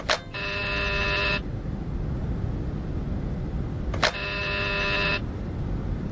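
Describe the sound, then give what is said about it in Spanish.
An apartment doorbell buzzer sounds twice, each a harsh, steady electric buzz lasting about a second and starting with a faint click, over a low constant background hum. “Es aquí. Voy a llamar por si hubiera alguien.”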